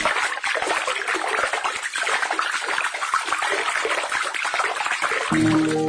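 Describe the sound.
Water trickles and splashes as a mother bathes her baby in a home bathroom, a steady soft wash of noise that continues throughout.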